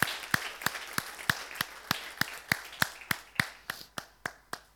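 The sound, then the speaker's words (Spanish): A church audience claps together during a service, many sharp, evenly spaced claps in a steady unison rhythm. Each clap decays quickly before the next, and the later claps grow slightly fainter and cleaner. “Renovamos el aplauso para ellas.”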